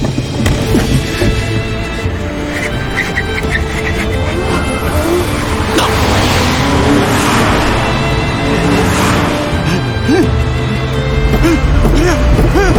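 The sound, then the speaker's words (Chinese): A car engine roars at high speed in a chase toward a sharp left turn at a tunnel entrance, loud and continuous with a dense, steady drive that never lets up. “我们在右侧，如果能超车，或许能逼停他。 吴嘉义一定也这么想。慢点，速度太快，前面要急转弯了。”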